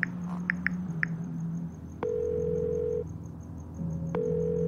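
A telephone is dialed to a systems department: a few short keypad beeps sound over a low steady dial tone, then two longer, higher ringing tones follow at an even interval.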